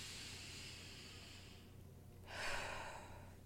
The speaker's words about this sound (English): So close my eyes, take a deep breath.